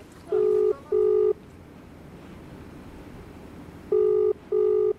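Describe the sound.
A telephone call ringing out in Delhi: two pairs of short, steady ring tones separated by a long pause, over faint background hiss.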